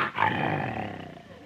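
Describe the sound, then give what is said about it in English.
A lion roars at night in the jungle: one loud, drawn-out growling roar with a deep rumbling body that fades slowly over about a second and a half. “the air was rent by the roar of a lion”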